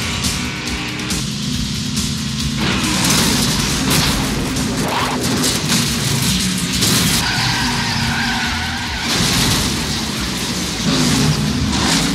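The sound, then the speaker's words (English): Race cars skid and slide down from the top of an oily track after a crash at turn three. Tire and engine noise stays loud and continuous throughout, with several harsh surges. “There's a crash at turn three, and some oil at the bottom of the track. The leader's just taken. Cars are sliding down from the top of the track, so watch yourself.”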